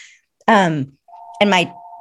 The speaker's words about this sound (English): I'm so sorry. We are the only people with a real phone. Oh, the house phone. That's all a right. Landline. Do you want me to turn that off?